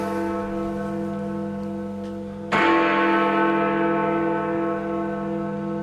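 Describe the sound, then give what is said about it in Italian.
Church bells ringing, with steady humming tones sounding from the start before a loud new strike midway that rings on and slowly decays to the end. “Fate suonare le campane.”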